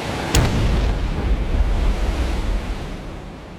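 A cannon shot splashing into the sea: one sharp burst, then a sustained roar of surf and wind that slowly fades.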